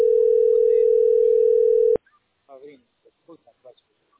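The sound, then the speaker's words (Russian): A steady telephone dial tone sounds while a call is placed, loud and unwavering for about two seconds, then cuts off abruptly, followed by a few faint short sounds. “сейчас звоню.”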